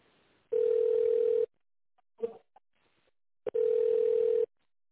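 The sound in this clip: Telephone line tones sound while a call is transferred: two long, steady, mid-pitched beeps of about a second each, separated by a gap with a few soft clicks and faint line noise.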